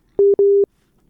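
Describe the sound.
Telephone busy tone after a call drops: two loud, steady, mid-pitched beeps in quick succession, the second longer, then silence.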